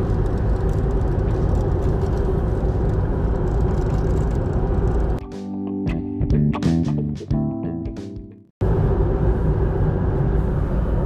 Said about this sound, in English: On the road now, and I'm telling you, these tires are okay.